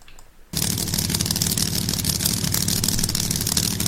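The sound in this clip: Loud drag race engines roar as a ProCharger-supercharged car runs against a nitrous-fed car, bursting in abruptly after a brief quiet start and holding a dense, steady, raspy blare to the end.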